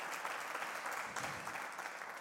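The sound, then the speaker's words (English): A church audience claps for God during a preacher's service, a steady, even applause that runs throughout without pause and stays fairly faint. “Come on, give God a hand clap.”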